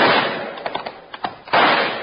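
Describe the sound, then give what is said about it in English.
Rifle shots fired at night toward a tall tree in moonlight, heard as a few sharp, loud cracks in quick succession over a steady rushing noise. “I'll try my rifle.”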